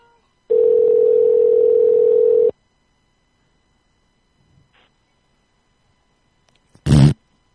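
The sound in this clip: A telephone dial tone hums steadily and loudly for about two seconds before cutting off, followed by silence, a faint click, and a short, sharp burst of sound near the end.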